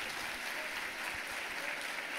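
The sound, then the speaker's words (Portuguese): A church audience applauds, the dense, steady clapping of many hands forming an even wash of sound that holds at a constant level from start to finish, with no one speaking. “Mas você que aplaudiu, aplauda o Senhor e celebra o seu nome.”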